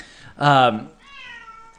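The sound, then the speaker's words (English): A needy house cat lets out one loud, drawn-out meow, followed by a quieter, lower tonal sound that trails off. “We got a needy cat.”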